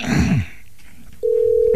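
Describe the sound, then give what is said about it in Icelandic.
A telephone ringback tone as a call rings out to a sports centre in Blönduós: after a brief noisy rustle and a short quiet gap, a steady low single-pitched tone starts and holds unbroken to the end. “Þú ætlar að hringja í íþróttamiðstöðin Blöndósi”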